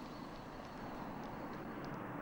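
An airplane moves across an airport apron. Its engines make a faint, steady roar with a thin high whine and no clear rise or fall.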